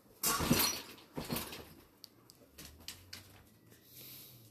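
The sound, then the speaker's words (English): A dog scratches its rear against a wooden dresser, making a series of soft, irregular knocks and rubbing scrapes. The sounds are quiet and separated by brief pauses. “You've never seen a dog scratch their ass on a dresser before.”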